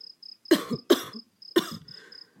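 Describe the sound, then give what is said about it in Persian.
A man coughing in three dry, rough bursts, the first two close together and the third after a short pause, over a faint, intermittent high-pitched tone. “پدر سرفه‌ای کرد و مشغول خوندن شد.”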